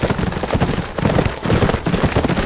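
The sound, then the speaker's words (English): Hoofbeats of several horses as riders come into an old ghost town: a dense, steady run of irregular clopping that stays fairly loud and even throughout, with no clear pauses. “John Carlin and Bull Sutton rode into the old ghost town, several of their hands with them”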